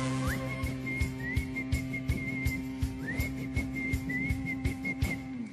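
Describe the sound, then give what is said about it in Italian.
Someone whistles a song held almost entirely on one note, with short upward slides into the pitch. The whistling sits over a steady thumping beat and a low, sustained bass accompaniment. “La canzone mononota ha avuto i suoi antesignani, uno su tutti, Rossini, Bob Dylan, Pintarella di Luna. È anche facile da fischiettare.”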